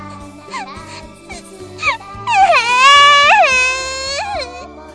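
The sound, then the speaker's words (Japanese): A person crying loudly while being comforted by a teacher: a few short whimpering sobs, then sustained wailing with a wavering, bending pitch that grows loud and stays strong to the end. “私は泣いた。思いっきり泣いた。”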